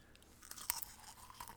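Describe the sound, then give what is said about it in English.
Popcorn crunches in quiet, close chewing, with a few crisp bites and soft, irregular munching between them. “I'm just a tad bit hungry, so I'll be muting my mic and eating popcorn while you talk at certain points.”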